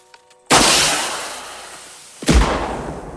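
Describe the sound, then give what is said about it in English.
A flare gun fires a red flare at night: a sharp loud bang, then a long hissing rush that slowly fades, and then a second heavy bang near the end. “At night, a red flare burns across the black sky.”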